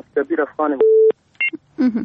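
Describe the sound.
Telephone line tones as a listener's call connects to a call-in line: a steady flat tone, then a short two-pitch beep, between short bits of talk.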